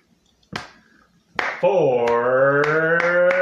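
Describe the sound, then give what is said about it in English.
A slow clap of a few sharp hand claps, spaced widely at first and then coming closer together, with a sustained droning tone entering partway through beneath them. “Slow clap”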